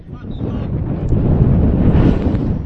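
Wind buffets the microphone at an outdoor soccer field during a match, a steady, loud, low rushing roar that swells slightly and continues throughout.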